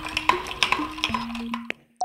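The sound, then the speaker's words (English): Ice clinks as a classic Persian sharbat with plenty of ice, grated cucumber and fresh mint is stirred. Bright glassy taps come in an irregular run, thin out near the end, and one last clink follows. “That, my friends, is pure audio refreshment. Otherwise known as the sound of the grand dame of Iranian cooking in the U.S. making a classic icy Persian treat. It's called Sharbat.”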